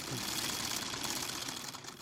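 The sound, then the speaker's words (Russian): Old Singer sewing machine chattering: a rapid, steady mechanical rattle, fairly faint and continuous throughout, with no voices. “Стрекочет машинка Зингер.”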